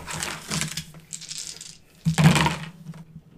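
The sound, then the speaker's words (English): Dice rattle and clatter as they are rolled across a table during a tabletop game, with a couple of bright, clicking bursts separated by a short pause. “Pick up your dice and roll.”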